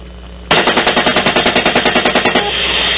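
Rapid automatic gunfire aimed at a disabled van, one sustained burst of evenly spaced, loud shots lasting about two seconds, framed by a steady mechanical hum before and after.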